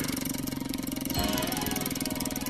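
Rapid, continuous clicking from a prize wheel spinning, a dense even ticking that runs through the whole clip with a slight change in texture partway through.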